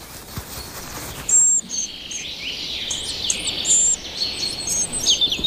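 Nestling birds calling in a tree hole: high, thin chirps and squeaky calls begin about a second in and repeat rapidly in overlapping runs over a faint steady hiss.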